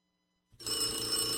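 A telephone bell breaks in after half a second of silence and keeps ringing, a bright, loud, steady metallic trill with no talking.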